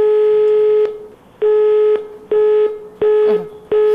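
Busy tone on a phone call to a hotline: five loud, steady beeps at one unchanging pitch, each about half a second long with short gaps between them.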